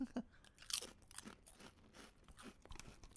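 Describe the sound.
Crunching and chewing of crunchy chili pepper chips made with real chili peppers, with many irregular crisp bites and grinding chews, quiet and close with no talk.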